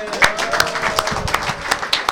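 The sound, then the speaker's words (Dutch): Applause for residents of De Kooi receiving a green ribbon: many sharp, irregular claps ring out over a continuous bed of clapping, while people talk through it. “Dus groot applaus en ze krijgen een lintje opgespeld.”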